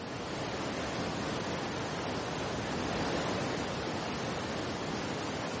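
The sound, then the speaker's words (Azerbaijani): The roar of Niagara Falls: a dense, unbroken rushing noise that holds an even level for the whole clip, with no pauses or distinct events. “Dünyanın ən gürsulu şəlalələrindən biri olan Niagaranın səsi 25 kilometr uzaqlıqdan eşidilir.”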